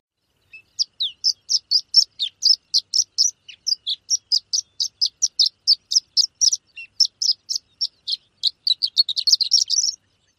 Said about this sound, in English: One more time, the short song of the horned lark. And now the long song.